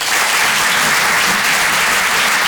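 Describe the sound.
A comedy club audience applauds a comedian at the Grand Point Virgule, with dense, loud, continuous clapping sustained throughout.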